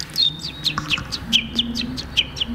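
A person imitates a contented chick, giving many short, high, bright chirps in a quick, uneven rhythm, fairly loud and without talk.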